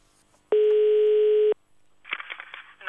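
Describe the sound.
A telephone dial tone sounds before a call is placed. It is a single steady, even-pitched tone lasting about a second, then a brief gap and some faint, muffled rustling noise.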